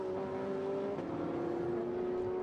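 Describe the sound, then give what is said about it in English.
A McLaren race car from Inception Racing, number 70, drives down a race track with a steady, sustained engine drone. Its pitch stays level apart from a brief shift about a third of the way in. “Sitting in behind, the Inception McLaren driving down the middle of the road like a safety car.”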